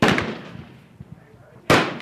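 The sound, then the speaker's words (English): Antique pistols and rifles fired at a shooting range near Phoenix: sharp cracking shots, a rapid cluster at the start, a softer pop midway and another loud report near the end. “Antique pistols and rifles being fired at the Ben Avery shooting range”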